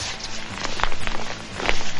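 Footsteps of people walking together, a few uneven, muffled steps over a steady background noise that grows slightly louder toward the end.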